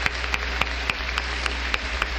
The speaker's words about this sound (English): And I want everybody right now to give Jesus Christ a hand clap for making all of this happen.